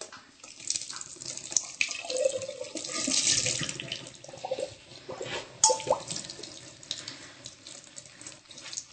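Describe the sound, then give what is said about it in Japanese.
Hot water draining off freshly boiled noodles, a steady rushing splash of pouring liquid that runs for the whole stretch, with small surges and a few brief clinks along the way. “お湯をしっかり切ってください。”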